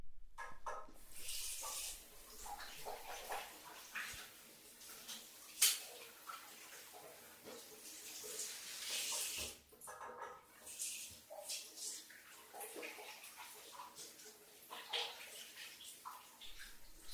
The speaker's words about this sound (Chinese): 老公，我一会儿洗完澡就出去了